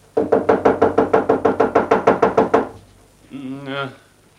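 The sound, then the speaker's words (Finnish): Knocking on a door: a steady, rapid run of many even knocks, loud and regular, after which a brief voice speaks. “Minä koputan nyt.”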